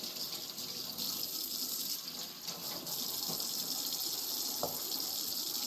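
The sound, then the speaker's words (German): Running tap water gushes steadily while things are washed clean under it. The rushing, hissing flow is fairly quiet and constant, with a few faint knocks and no voices. “Jetzt werden die kurz mal weg abgewaschen. Immer ordentlich waschen alles, weil es soll ja auch ordentlich sauber sein, ne?”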